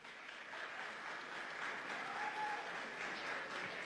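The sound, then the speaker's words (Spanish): Faint, steady applause from an audience during a reading of names, sustained evenly throughout with no voices over it. “solo aplausos.”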